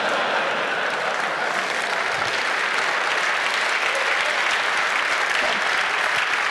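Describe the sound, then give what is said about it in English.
Steady applause from an audience at the close of a technical presentation: dense, even clapping that stays loud and unbroken throughout, with no talk over it. “thank you. Give a round of applause.”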